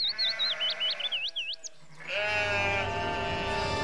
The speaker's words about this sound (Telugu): మరుసటి రోజు ఆ వ్యక్తి గొర్రెల్ని తోలుకుంటూ అడవిలోకొచ్చాడు.